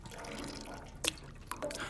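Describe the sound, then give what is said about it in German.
Water dripping during a test of whether something holds water: a few faint, short drips, each a brief splash, over a quiet background. “Versuchen wir es nochmal mit Wasser.”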